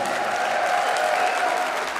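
A crowd's applause greets a Latin-pop singer taking the stage at the Heimatsound festival, thick continuous clapping for two seconds with a thin, steady tone running faintly through it.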